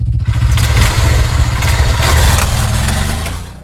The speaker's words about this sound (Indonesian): Wih, motor baru nih.